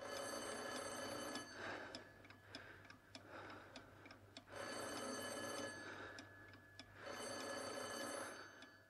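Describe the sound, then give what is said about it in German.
A telephone bell rings faintly in repeated bursts separated by pauses, with no talk. “Ach so, das Telefon.”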